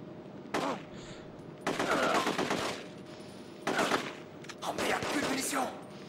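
Gunfire in a first-person shooter video game: several loud bursts of rapid automatic shots, separated by short pauses, with the longest bursts in the middle and near the end.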